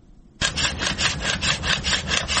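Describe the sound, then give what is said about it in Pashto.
A hand saw cuts down a pomegranate orchard tree in Arghandab, Kandahar, starting abruptly, then rasping in steady, rapid back-and-forth strokes through the wood, loud and alone. “د اری دا ژغ د رغېدو لپاره نه بلکې د ورانېدو لپاره دی.”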